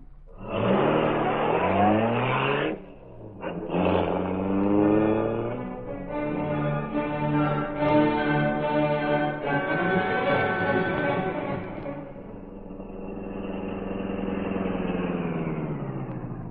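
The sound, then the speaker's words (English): A car driving fast, its engine revving loudly with pitch climbing through successive gears, then settling into a sustained, steadier drone that eases slightly. “Fast driving”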